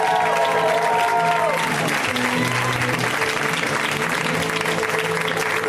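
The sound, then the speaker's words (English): A comedy audience applauds a comic taking the stage, with continuous, dense clapping and some crowd noise at a steady, loud level throughout. “Let's hear it right now from Mr. Elliot Glazer, guys. Give it up for Elliot.”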